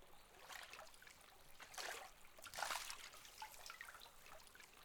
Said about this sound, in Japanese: 温泉のお湯を張った桶を用意していますので、一度すすいで。